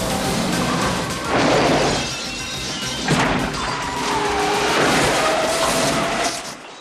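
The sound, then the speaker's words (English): A pickup truck crashes into a car that has just shot over a low parapet. Loud crunching, smashing impacts come in several heavy bursts, with scraping and clattering noise carrying on between them. “It shoots forward and over a low parapet, coming to halt in front of the pickup truck, which crashes into it.”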